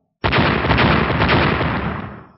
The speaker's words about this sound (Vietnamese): Những tiếng nổ liên tiếp truyền ra